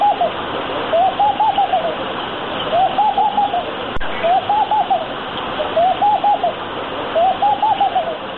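A musichi dove coos in repeated rhythmic phrases of soft, rounded notes, heard over a steady rushing noise like flowing water.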